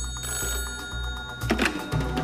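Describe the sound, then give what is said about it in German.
Telephone ringing in a radio drama, a fairly faint ring over a dense background with a steady, repeating low pulse beneath it. “Anruf bei Bonnand.”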